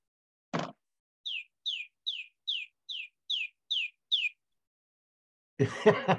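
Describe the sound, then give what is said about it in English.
A small, somewhat stressed chicken chirping: eight short, high peeps, each sliding down in pitch, spaced evenly in a steady run. “I thought I heard a little bird in the background. Sorry. This is the little chicken. It's always a little bit stressy.”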